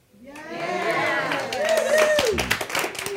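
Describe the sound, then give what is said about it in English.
A live studio audience applauds, with scattered claps layered under people talking and a loose crowd murmur throughout. “That is our beautiful live audience in the studio.”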